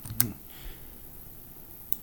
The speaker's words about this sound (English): Let's type that.